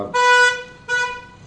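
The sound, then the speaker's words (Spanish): A car horn honks twice outside: a longer bright blast, then a shorter second one after a brief gap, both loud and with no voices. “Que ha sonado un buen pito por ahí, ¿no? Sí, un coche, ¿no?”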